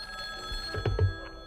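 A telephone bell rings in a short, steady tonal burst, with a couple of soft low thumps beneath it and no talk.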